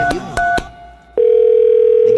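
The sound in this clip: Telephone dial tone while a call is being placed: a few short beeps and clicks come first, then a steady, loud, unbroken tone holds to the end.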